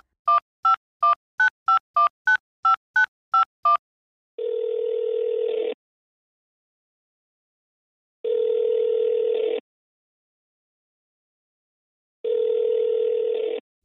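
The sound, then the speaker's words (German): Touch-tone telephone dialing, a quick run of many short, crisp beeps, followed by three long, even ringback tones separated by silent pauses. “dann lass jetzt erstmal Thomas anrufen”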